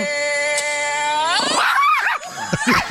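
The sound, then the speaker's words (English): A chihuahua howls along to singing, a loud, high, wavering howl that slides upward and bends repeatedly in pitch. “The dog sounded better. Yeah. The dog was in key. The dog hit the note. Good harmony by the chihuahua.”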